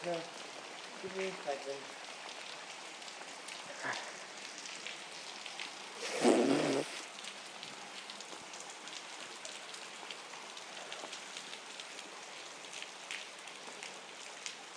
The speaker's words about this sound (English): I can either hold my hand here and have the rain go down the inside of my arm, or I can let that go and have it run down the inside of my chest.